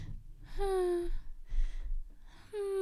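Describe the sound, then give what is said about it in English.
A voice imitates a friend's breathing noise in deep sleep: a squeaky, high voiced tone, a breathy rasping breath, then another squeaky tone. “My friend would make these little like, when she would breathe in and out, when she was in a deep sleep, yeah, she would go,”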